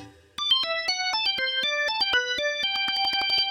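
A mobile phone ringtone plays for an incoming call: a bright electronic melody of many quick, clean synthetic notes stepping up and down in a repeating pattern, loud and steady with no talking.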